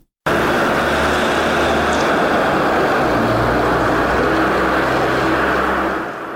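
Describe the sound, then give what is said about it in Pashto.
Steady, loud engine roar from a car in Garmsir district, starting abruptly after a brief silence. A deep droning hum runs underneath and holds nearly constant before dipping slightly at the end. “د الیاس تایی رپورټ اورو چې د موټر په غږ پیلېږي”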